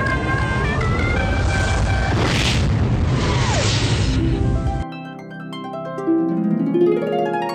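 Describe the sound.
Self-destruct explosion sound effect: a deep, loud rumbling blast roars for nearly five seconds, then cuts off abruptly into a few bars of music.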